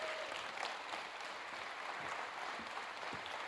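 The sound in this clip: Steady applause from a standing audience welcoming a guest speaker, a dense, even patter of many hands clapping without a break.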